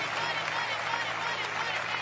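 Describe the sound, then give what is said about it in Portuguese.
A church audience clapping their hands in praise, heard as a quiet, continuous patter of many hands at an even level throughout. “Pode louvar a Deus com palmas, igreja. Palmas para Jesus, palmas para Jesus.”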